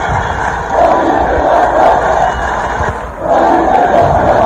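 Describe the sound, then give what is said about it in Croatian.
About 30,000 football fans in a stadium cheer and chant loudly as the Bosnia and Herzegovina national team walks onto the pitch. The dense roar of many voices swells in waves and dips briefly before surging again. “Oko 30.000 navijača ovacijama su pozdravile BiH Zmajeve dok su izlazili na teren te se moglo čuti gromoglasno skandiranje.”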